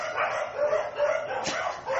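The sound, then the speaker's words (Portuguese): Neighbourhood dogs barking: a few rough, overlapping barks and yips in loose succession, moderately loud over a steady background noise, with no voices. “Todos os cachorros de vizinhança estão latindo.”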